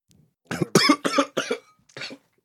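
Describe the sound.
Coughing from someone who had something go down the wrong pipe: five sharp, harsh coughs in quick succession, the last one separated by a short pause, loud against silence.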